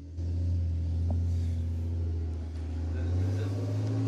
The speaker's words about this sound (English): Hold on. You have to listen to this Dodge Ram drive by.